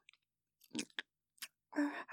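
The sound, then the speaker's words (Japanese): Chewing food while eating, a few soft, moist mouth sounds in short separate bursts with silence between them. “一生懸命食べてます。”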